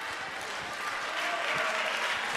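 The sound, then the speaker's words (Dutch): A church audience claps during a sermon. The soft, dense patter of many hands swells slightly louder toward the end. “u mag klappen.”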